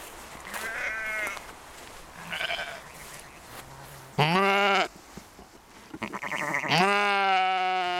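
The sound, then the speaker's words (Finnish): Sheep bleat on a natural meadow where they graze, giving several calls: two faint, wavering bleats early on, then two loud, sustained ones toward the end, with low background noise between them. “Erikoistutkija Mikko Kuussaaren kotipihan tuntumassa on luonnontilainen niitty, jossa lampaat saavat laiduntaa”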